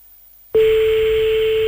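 A telephone line tone sounds while a host calls a listener. After half a second of silence, a loud, steady single-pitched tone begins abruptly and holds without a break.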